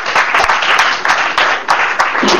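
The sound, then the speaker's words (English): An audience claps during a church service, many hands forming a dense, loud wash with a steady pulsing rhythm throughout. “Give Jesus a clap offering.”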